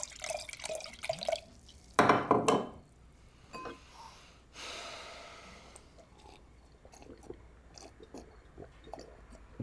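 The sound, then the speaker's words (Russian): Wine is opened and poured into a glass, with a short burst of gurgling liquid in the middle and faint drips and small clicks scattered around it in an otherwise quiet room. “открывает вино и наполняет бокал”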